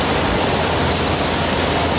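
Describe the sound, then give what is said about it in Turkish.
Heavy rain pours onto city streets during a nighttime thunderstorm, pooling into puddles: a dense, steady, loud hiss with no break and no voices. “Yağmurla birlikte şimşekler geceyi aydınlattı. Yağış sonrası cadde ve sokaklarda su birikintileri oluştu.”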